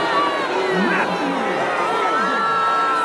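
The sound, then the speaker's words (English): Arena crowd booing a mutant player as the Toronto starting lineup is announced: a steady, sustained roar of many voices, with a spoken voice over it. “Why are they booing him like this?”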